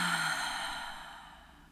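A deep exhale through the mouth during a guided breathing exercise: one long, breathy rush of air that starts fairly strong and fades steadily, with no talking.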